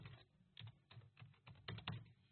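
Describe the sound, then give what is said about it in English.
Typing on a computer keyboard: a quick, uneven run of many soft keystrokes, faint and heard alone without any voices. “I'll let you know here real quick. I'll type in Amorphous on the website.”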